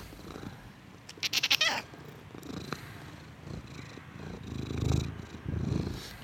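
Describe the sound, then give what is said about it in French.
A cat purring inside a therapist's office: a low, rough, rumbling purr that swells and fades. A short burst of brighter rattling comes early, and the purr grows fuller near the end. No one speaks. “Donc c'est un chat qui s'est introduit dans le cabinet.”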